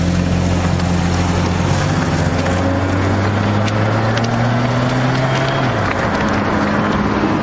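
A car engine drones steadily as the car drives off down a street, a low hum with overtones that step up in pitch partway through and then drop near the end.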